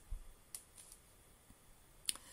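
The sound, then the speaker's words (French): A computer mouse clicks on a link, giving a few faint, sharp ticks spread across two seconds in near silence. “Je vais quand même cliquer dessus, comme ça vous allez pouvoir voir à quoi ressemble une page du MSDN.”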